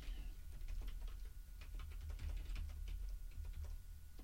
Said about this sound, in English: hold on. Let me just type there.